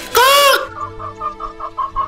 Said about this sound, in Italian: ecco arrivare una gallina terrorizzata